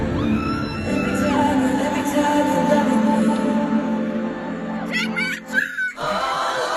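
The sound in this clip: A large pop concert crowd chants in unison over music, forming a dense, sustained roar of tonal voices. Near the end there is a brief dip and some higher shouts.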